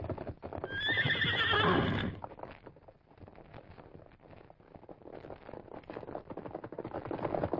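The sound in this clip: A stallion gives a loud, shrill whinny, then its hoofbeats follow in a rapid, steady galloping rhythm that carries on to the end without voices.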